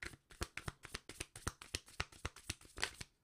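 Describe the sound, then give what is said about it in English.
Tarot cards are shuffled and handled, producing many crisp, papery snaps and riffles in a brisk, fairly regular rhythm. The sharp bursts come alone and are quite faint. “So let's see what's going on. Let's get the tarot. Let's get the tarot.”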